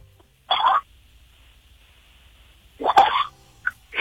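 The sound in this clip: Slurping as someone sucks non-carbonated Calpis out of a small hollow: two short airy sucks, then a brief third one, separated by near silence.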